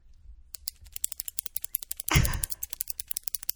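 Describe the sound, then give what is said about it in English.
A pen clicked over and over, producing many sharp, crisp clicks in a fast, steady rhythm, with a brief rustling noise partway through. “And just in case I need to do some writing, I'm going to click my pen.”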